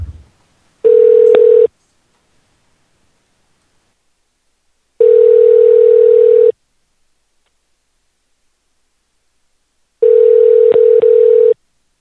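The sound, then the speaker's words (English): An outgoing telephone call rings out before reaching voicemail: three loud, steady ringback tones at one mid pitch, each lasting about a second, separated by long silences. “It's going to somebody's voicemail, but maybe it's ringing them and wake them up.”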